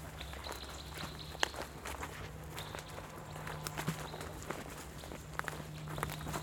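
Footsteps walk along a garden path beside ponds, faint, soft and steady, with a few slightly sharper scuffs over a low constant hum.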